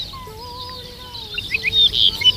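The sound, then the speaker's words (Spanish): Song of Dupont's lark (ricotí): thin, drawn-out whistled notes, followed by a run of sharper, high-pitched chirps that grow louder toward the end. “Arricotí, se llama como tal porque es una emulación de la onomatopeya que produce en el canto, el tití-tití.”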